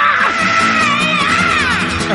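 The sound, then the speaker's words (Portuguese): Several people yell and scream together at full volume. Long, wavering, high-pitched cries overlap without a break from start to end. “Gritaria hoje! Vamos gritar nessa porra!”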